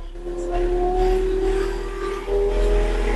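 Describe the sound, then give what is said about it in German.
A small vehicle's motor drones as it drives off after its right gas pedal is tapped lightly, a loud, steady hum whose tone climbs slightly, dips, then picks up again. “Wenn du jetzt das rechte Gaspedal leicht antippst, dann sollte er losfahren.”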